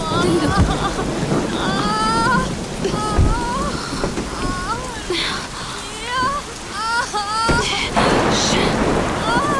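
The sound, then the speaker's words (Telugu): Rain falls steadily while thunder rumbles in a few heavy bursts, and voices break in intermittently over the downpour. “వర్షం పడేలా ఉంది.”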